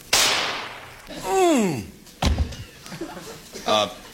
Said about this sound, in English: If you'd like to just kind of take a shot at me. It's only a .22, but just point it right at my chest and let me have it.